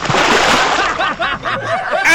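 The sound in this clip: Water splashes in a short sound effect, with noisy, sloshing bursts that rise and fall over about two seconds and a fresh burst at the very end.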